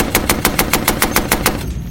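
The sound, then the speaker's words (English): A Tommy Gun, the 1920s submachine gun, fires a rapid burst of about ten loud, evenly spaced shots in a steady rattling rhythm that stops abruptly. “Oh. That Tommy Gun.”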